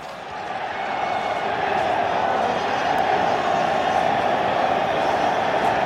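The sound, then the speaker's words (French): A football crowd calling for Diego Maradona, heard from the room just beneath the stands as a continuous roar of massed voices that swells over the first second and then holds steady and loud. “La pièce est située juste sous les gradins et le public réclame son nouveau héros.”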